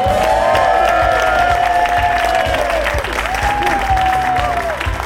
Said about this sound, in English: Please raise the roof for David Davis!